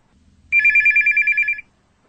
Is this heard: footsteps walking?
no

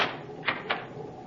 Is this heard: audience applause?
no

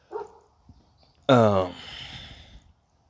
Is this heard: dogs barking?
yes

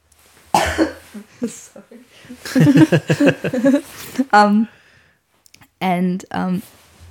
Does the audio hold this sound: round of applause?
no

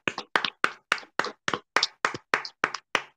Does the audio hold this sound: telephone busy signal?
no

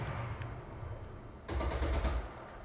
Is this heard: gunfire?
yes

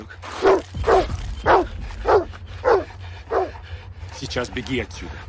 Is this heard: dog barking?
yes

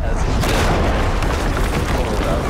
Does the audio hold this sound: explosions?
yes

